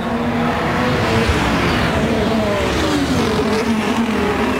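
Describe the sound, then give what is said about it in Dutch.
A Formula 1 car leaves the pits at the Bahrain Grand Prix with a loud, steady engine roar whose whining pitch shifts and climbs as it pulls away. “Stop van 3.2.”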